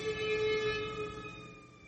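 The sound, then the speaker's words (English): An emergency vehicle siren goes by, sounding as steady high wailing tones that sag slightly in pitch and fade a little toward the end. “Hearing emergency vehicles go by is a problem for me these days.”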